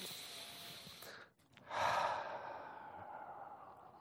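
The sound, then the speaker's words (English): A single soft breath, an airy, sigh-like exhale that swells and then slowly fades. It is faint and heard alone after a brief pause. “followed by a breath.”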